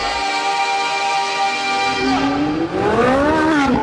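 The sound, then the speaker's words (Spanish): Race car engine in a racing simulator video game: a steady, high, buzzing engine tone that sharply climbs in pitch as the car accelerates in the second half. No one talks. “Vámonos a subir a nuestro simulador, así que ustedes sean nuestros copilotos, porque se va a quemar el acelerador en The Driver Show.”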